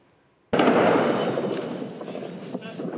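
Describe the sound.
A sudden loud blast from a missile strike on a city street, followed by a long, rumbling, slowly fading roar with a few faint pops near the end.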